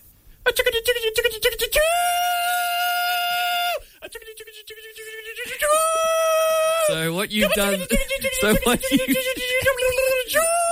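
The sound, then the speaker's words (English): Vocal call from a contestant at a state fair chicken-calling competition, a voice imitation that comes out like a chugging train. It runs as a loud run of rhythmic, pitched voiced bursts and held wavering tones with brief pauses. “So what you've done there is a train. So that's a train. That's what a train sounds like. Calling a chicken. You literally went chugga chugga chugga chugga.”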